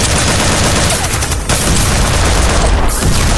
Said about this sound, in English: Point your rifle that way and shoot them, please!